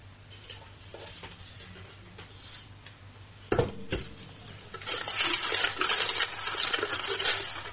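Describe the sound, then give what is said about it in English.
Name slips in a draw box are stirred by hand: faint soft rustling at first, then a sudden louder shuffle and a busy papery rattle that continues to the end. “so I will get the box and give it a stir and see who's lucky enough to be drawn out.”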